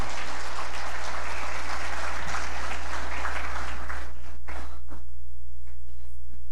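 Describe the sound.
Audience applause welcoming a speaker invited up to give a few remarks: dense, steady clapping for roughly four and a half seconds that then breaks off sharply, leaving a constant low electrical hum.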